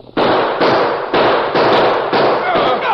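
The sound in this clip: Gunshots from a six-shooter in a western shootout: several loud, sharp reports in quick succession, each spreading into a dense crackling wash of noise. No talk is heard over them.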